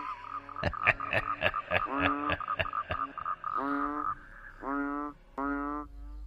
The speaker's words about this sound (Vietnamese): tiếng ếch nhái vẫn cứ râm ran ở cái đìa ngay bên cạnh nghĩa địa